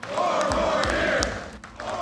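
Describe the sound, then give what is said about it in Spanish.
A crowd of union workers at a speech by the president cheers and chants "four more years," a loud mass of voices rising and falling in a rhythmic chant. “Más tarde, el presidente habló frente a un grupo de trabajadores sindicalizados. Aquí, el público le echó porras con la consigna cuatro años más.”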